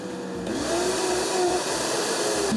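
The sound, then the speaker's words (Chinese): A juicer's motor runs with its spiral blades spinning, giving a steady, loud mechanical drone with a faint tonal whine. The sound settles into a constant level after a slight change early on and keeps running without any voices. “一旦启动，这飞刀螺旋一转，叫你想停都停不下来，听见没？稳定美妙的马达声，仿佛到了方程式赛车的赛道旁”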